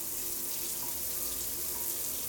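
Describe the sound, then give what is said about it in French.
Water runs from a tap for a shower at home, a continuous, even, fairly faint hiss with no breaks. “J'ai décidé d'aller chez moi prendre une douche avant de rejoindre les totorologues.”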